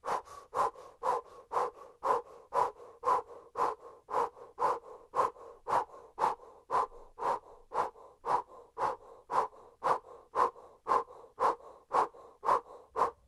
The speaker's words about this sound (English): Now keep the position with your hands and let's begin a powerful breath of fire through an O-shaped mouth.